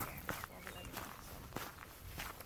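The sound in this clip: Slow footsteps of a pregnant woman walking to a parking lot, several soft, unhurried steps, quiet, with a voice speaking over them.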